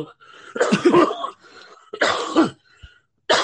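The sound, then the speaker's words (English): Coughing after smoking a blunt: a few rough, raspy coughing bursts separated by short pauses. “I just put out a blunt. Please forgive me, my smokers. But that's when you know when you're coughing.”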